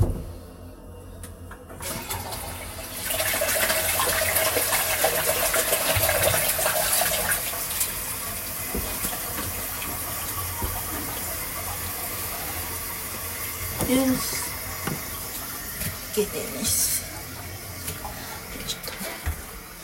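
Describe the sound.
Water poured and flushed down a sink, with an empty plastic bottle nearby. A loud, steady gushing rush runs for about twenty seconds, with a few brief knocks near the end.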